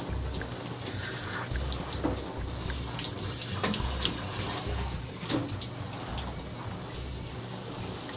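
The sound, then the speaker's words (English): Tap water runs steadily over skin as soap lather is rinsed off, a continuous hissing splash with small irregular splatters and drips, fairly soft and unbroken by speech. “See, I just rinsed.”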